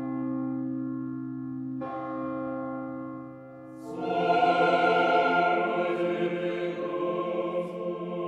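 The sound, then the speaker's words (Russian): Church and monastery bells ring out across Novgorod in a sustained peal of deep, overlapping tones. Fresh strikes join partway through, and the ringing grows fuller and brighter as more bells sound together, with no voices. “Во всех церквах и монастырях били в колокола и пели благодарственные молебны.”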